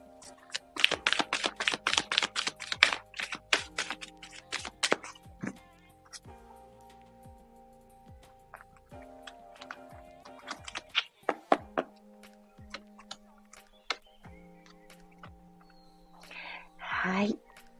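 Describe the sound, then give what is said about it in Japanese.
Tarot cards being shuffled make a quick run of soft taps and light thumps, dense at first and then sparser, over a faint sustained musical tone. “それではカードをシャッフルいたします。少々お待ちください。”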